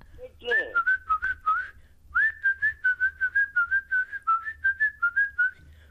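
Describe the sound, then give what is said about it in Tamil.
Whistling in many short, chirpy notes at a mid-high pitch, heard in two quick runs separated by a brief pause, loud and clear over a faint low hum, with no talk. “கேட்டிங்களா? ஐயா, அது whistle சத்தம்.”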